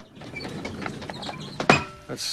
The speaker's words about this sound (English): He pushes his equipment trolley to one side and wheels across a number of gas canisters.